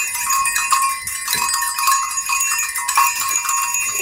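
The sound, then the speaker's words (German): Six small herd bells of different sizes, mounted together, jingle in many overlapping bright tinkles with ringing tones that sustain between irregular strikes, moderately loud and alone. “das sind wahrscheinlich die Glöckchen von einer kleinen Herde. Mhm. Also es ist so, dass hier sind insgesamt 1, 2, 3, 4, 5, 6 Glöckchen dran. Man hört das auch.”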